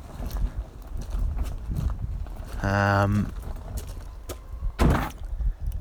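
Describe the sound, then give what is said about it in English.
A farm field gate is opened, its hinge giving a short harmonic creak followed by a sharp knock, over steady outdoor background noise. “Open gate number one.”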